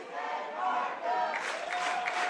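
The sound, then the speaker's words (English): Crowd noise from fans behind home plate at a Troy college baseball game doing a roll call chant for their players. It is a fairly faint, steady wash of massed voices. “And the Troy crowd behind home plate here doing the old roll call. Going from player to player, giving their guys some credit out there on the field.”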